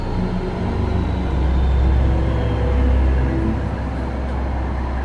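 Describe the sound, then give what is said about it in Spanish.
A garbage truck approaches with a low, rough engine roar. The steady rumble swells in loudness toward the middle and then eases slightly, with no voices present. “Progresivamente, el desagradable bramido del camión de la basura fue creciendo en intensidad y volumen como prueba de su inminente proximidad.”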